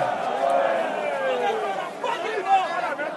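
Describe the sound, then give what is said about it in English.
Crowd at an anti-government protest in Monrovia, Liberia: a steady babble of many overlapping voices, a dense murmur of chatter with no single voice standing out. “A year and a half later, the crowds are sounding less positive.”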